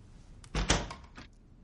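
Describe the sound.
A door swings shut with a solid, heavy thump, followed by a few fainter knocks as it settles, then quiet.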